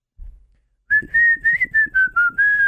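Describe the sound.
Continuous human whistling holds a steady, clear, fairly high tone with slight wavering in pitch and a few brief dips in loudness, alone after a short faint rustle at the start.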